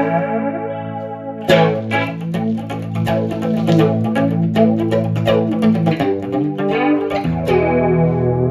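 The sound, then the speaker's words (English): A guitar runs through a super chorus and vintage flanger effect, with a sustained shimmering tone giving way to a run of strummed and picked notes that swirl and sweep, loud throughout. “Super chorus, you got vintage flanger, so that sounds like. Again, not a whole lot going on there. Let's change the depth and the rate here.”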